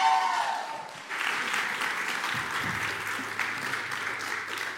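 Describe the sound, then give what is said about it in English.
Applause fills a church as a speaker is welcomed to the stage, with dense, steady clapping after a brief voice at the start. “So today, if you would do me a favor and welcome Brandon up here, give him a hand and let's listen.”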